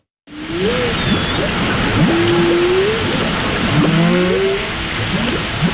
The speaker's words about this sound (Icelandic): Kór frá bænum Margate í Kent á Englandi notar hvalahljóð frá kvölum úr Bakkaflóa í nýju lagi sínu.